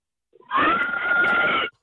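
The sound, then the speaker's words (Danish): A single sustained pig squeal, shrill and tonal, lasting a bit over a second after a brief faint grunt-like lead-in, heard alone and cutting off abruptly. “Gris!”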